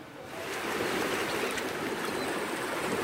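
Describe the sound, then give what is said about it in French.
Sea water of the rising tide on a beach rushes and washes steadily, swelling during the first half second and then holding a constant, broad hiss. “Ah, voilà la marée. L'eau de mer monte. La voilà sur moi.”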